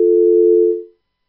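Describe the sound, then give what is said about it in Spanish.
A telephone tone sounds after a call is cut off: one steady, mid-pitched tone held for just under a second, then it fades quickly into silence. “Se cortó la llamada.”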